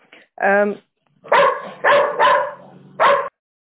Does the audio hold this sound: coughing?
no